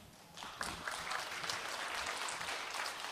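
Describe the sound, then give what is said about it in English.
A church audience applauds to welcome a guest speaker on a Sunday morning. The dense, even clapping rises within the first half second and then holds steady and full. “So y'all do me a favor and welcome Brad as he comes this morning.”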